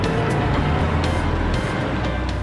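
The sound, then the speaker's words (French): Car sound effect of a vehicle driving off: a loud, steady, low engine and road rumble fills the whole short stretch, with no voices. “bruitage de voiture”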